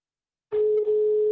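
Steady telephone dial tone heard while placing a call, a single continuous hum that begins abruptly after half a second of silence and holds level to the end.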